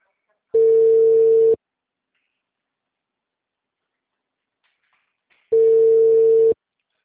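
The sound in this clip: Outgoing telephone call ringing on the line: two steady mid-pitched tones, each lasting about one second, separated by a long silent gap, with no voices.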